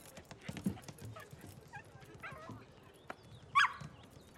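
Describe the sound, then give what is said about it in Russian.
Dogs make faint whimpers and soft yelps with low rustling between them, then one sharper, louder high yelp near the end. “Мои собаки.”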